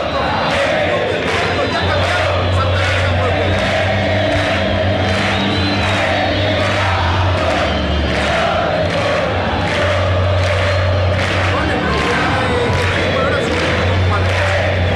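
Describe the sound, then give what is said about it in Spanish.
Cerro Porteño football fans fill a stadium during a clásico against Olimpia. Their loud, sustained crowd noise carries a steady rhythmic pulse of massed voices that continues without a break. “Escuchen los hinchas de Cerro.”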